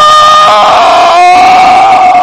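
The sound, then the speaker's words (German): People in a boat scream in fright at a ghost: loud, sustained, high wavering cries that carry on without a break, alone and with no talk over them. “Schreien.”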